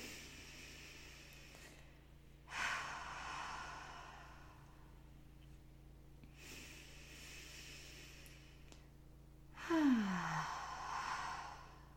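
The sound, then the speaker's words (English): Deep breathing as a person inhales through the nose and exhales out the mouth: three slow, airy rushes of breath separated by quiet gaps, the last one slightly louder, with no talking. “taking a few deep breaths. So take an inhale through the nose and exhale out the mouth. Just a couple more like that”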